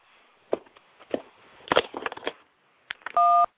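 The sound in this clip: Single telephone keypad tone as a caller presses 1 on a call-in phone line: a short, loud, steady two-note beep at the end, preceded by a few faint clicks and thumps.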